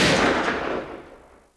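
A single pistol shot as a man shoots himself in a dramatized scene, a loud sharp blast whose broad echoing tail fades away over about a second and a half, with no voices.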